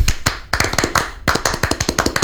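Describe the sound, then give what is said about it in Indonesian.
A Scout troop performs the Tepuk Pramuka, a patterned hand clap. Sharp, crisp claps fall in quick rhythmic groups separated by short pauses, and no other sound is heard. “Tepuk Pramuka.”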